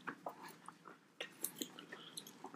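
Quiet, crunchy chewing of pizza topped with hard potato pieces, with irregular soft bites and crunches.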